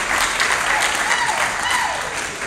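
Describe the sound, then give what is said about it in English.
Audience applause for a speaker being welcomed, a loud, dense and steady patter of many hands clapping that runs the whole time. “So if you would put your hands together and get him to feeling really good”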